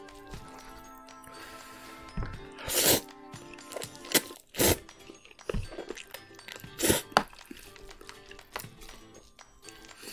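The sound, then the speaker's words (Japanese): Slurping and eating of Korean instant cup noodles with soft noodles, heard as several short, sharp, wet bursts spread out over a quiet background, with no talk. “ちょっと食べてみたんですけども”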